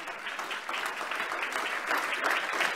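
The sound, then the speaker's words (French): Church audience applauding and acclaiming the Lord during a sermon: a steady patter of many hands clapping, fairly soft and continuous, with a slight swell toward the end. “Quelqu'un acclame le Seigneur ce matin.”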